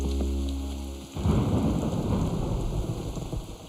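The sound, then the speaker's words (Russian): Pouring rain, a dense, steady hiss of downpour that breaks in abruptly after a low rumble and carries on to the end. “Льет дождь.”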